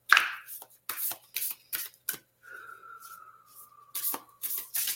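Activation cards being shuffled: a quiet series of brief, crisp riffles and snaps with short pauses between them.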